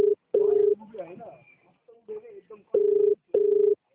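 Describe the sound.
A telephone ringback tone sounds as a call connects, coming in pairs of short mid-pitched electronic bursts, and people talk quietly in the gap between the pairs.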